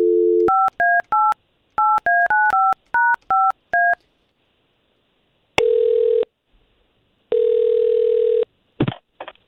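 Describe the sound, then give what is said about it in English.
Telephone dial tone, then touch-tone keypad beeps as a number is dialed to call a listener: a rapid series of pitched beeps in three quick bursts, followed by two long, steady ringback tones separated by silence. “we've got Alice's contact thanks to you, and we're going to call her right now.”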